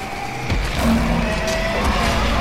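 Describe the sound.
A four-wheel-drive vehicle losing traction, a loud, dense roar of engine and road noise that holds steady and slightly swells over about two seconds.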